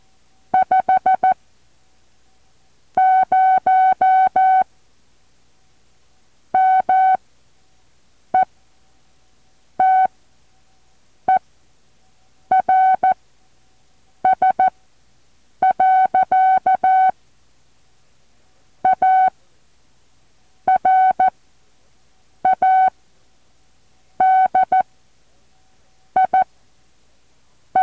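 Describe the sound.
Morse code sent at about 7 words per minute, a clear steady tone keyed into many groups of dots and dashes separated by silent gaps.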